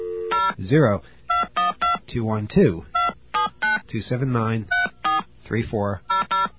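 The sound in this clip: Touch-tone telephone dialing of a number for a collect call: many short, crisp beeps in quick bursts, interleaved with people talking.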